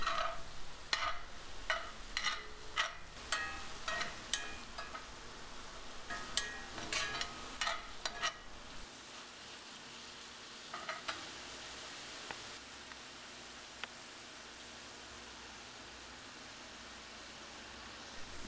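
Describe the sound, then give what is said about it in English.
Tomato cooking in a pan gives a continuous sizzling hiss. Many sharp stirring clicks and scrapes sound through the first half, then a quieter, steady frying noise continues alone. “And then add the tomato and cook the tomato until it's just softened, about 2 minutes.”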